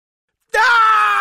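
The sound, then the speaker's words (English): A voice acts out a boy screaming in fright: one sudden, loud, drawn-out cry that bursts in after silence and holds steady to the end. “He screamed again.”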